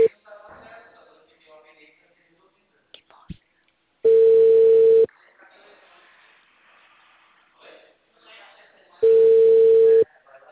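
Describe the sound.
A telephone busy tone sounds after a dropped call: two long, steady, mid-pitched tones of about a second each, separated by quiet stretches of faint murmured voices.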